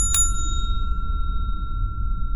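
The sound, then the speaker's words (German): A service counter bell gives a single bright ding, then a long, steady ringing tail that slowly fades over a low background hum. “Das gehört hier bestimmt zum Service. Das ist eine Klingel.”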